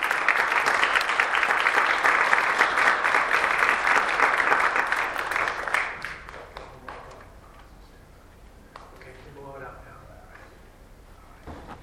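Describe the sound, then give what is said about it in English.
Applause from a church audience for a family after the baptism of their two children. The clapping is dense and loud for about six seconds, then dies away to scattered faint sounds. “So yay God and yay Norton family. Let's give them a hand.”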